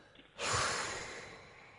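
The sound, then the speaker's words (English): One long, breathy exhalation through the mouth, made with the tongue tip behind the front teeth during a breathing exercise. It starts abruptly with a strong whoosh, then slowly fades to a soft hiss. No one speaks. “Place the tip of your tongue behind your two front teeth. Exhale completely.”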